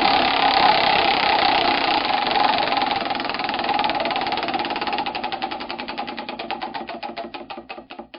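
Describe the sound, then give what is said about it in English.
Prize wheel being spun: a dense, fast ratcheting clatter that blurs into a steady whir, then breaks into distinct ticks that grow further apart toward the end. “Without further ado, I'm going to spin the wheel.”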